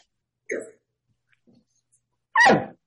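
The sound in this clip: A human voice imitates a dog bark: a short, soft vocal sound comes first, then after a pause a single loud, abrupt bark-like burst that drops in pitch.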